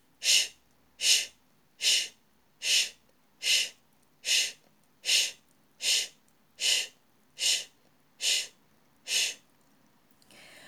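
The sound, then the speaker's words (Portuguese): Breath pushed out in a run of twelve evenly spaced, hissing 'sh' bursts, the interrupted X consonant of a breathing exercise, each short exhalation bright and steady, followed by a faint rising inhale at the end. “E agora trocamos mais uma vez para consoante X. Solte o ar, inspire e solte em X interrompido.”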